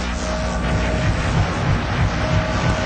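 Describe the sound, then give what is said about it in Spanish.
A squadron of five warplanes flying overhead as a radio drama sound effect: a loud, steady engine drone with a churning low rumble that holds without a break for the whole stretch, with no voices. “Una escuadrilla de 5 aviones de guerra puede reconocerse difusamente tras el cielo cubierto por la nieve fluorescente.”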